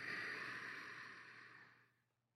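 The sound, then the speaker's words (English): A faint, drawn-out breath taken in during a qigong breathing exercise, a soft airy rush that holds steady for about two seconds and then fades out. “Inhale. Back to the dantian.”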